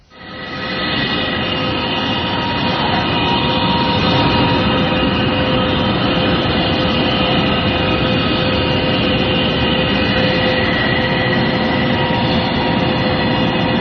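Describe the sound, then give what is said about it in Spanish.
A mysterious low hum recorded in Canada swells in quickly, then holds as a loud, continuous metallic drone with a broad rumble and sustained tones, much like a train. No voices are heard. “lo mejor para saber a qué se parece y con qué se puede comparar ese enigmático zumbido en Canadá es escucharlo y que cada uno saque sus propias conclusiones.”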